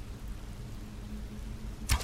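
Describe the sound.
A single arrow loosed from a bow in a video game while sneaking, a brief sharp whoosh-and-hit burst near the end over a steady low ambient hum.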